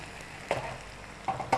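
Egg white and a stir-fried mixture cook in a pan, giving a faint, low sizzle broken by three short scraping stir bursts, with no talk.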